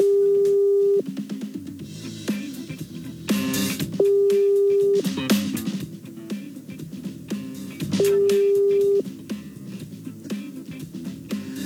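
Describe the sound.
Telephone line tone during an outgoing call: three steady one-second beeps evenly spaced about four seconds apart, heard over a busy, layered background of other sounds.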